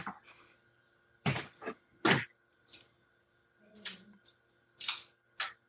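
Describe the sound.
A paper poster is peeled off a bedroom wall in a few short, sharp crinkling and tearing bursts separated by quiet gaps, with faint voice-like sound in between.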